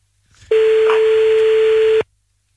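A steady telephone tone sounds as a call is dialed, one loud, unbroken beep lasting about a second and a half, preceded by faint background noise.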